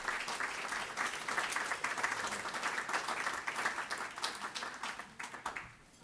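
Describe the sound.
Audience applause welcoming a speaker to a lecture on U.S. foreign policy in Waterville, Maine: steady, full clapping from many hands that holds level and then fades away at the end.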